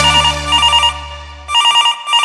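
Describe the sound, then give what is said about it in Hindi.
A telephone ringing: two loud bursts of high, warbling electronic trill separated by a brief pause. “अरे अरे सब शांत रह, केकर तो फोन आइलो।”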